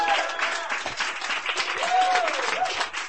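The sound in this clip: Audience applause for a performer at a poetry reading, an even wash of many hands clapping that holds steady from start to finish.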